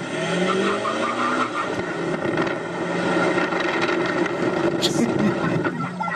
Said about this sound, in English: So they're towing a trailer behind their Super Duty. They ask her if she smokes. She replies, yes, I do. And they nail the gas.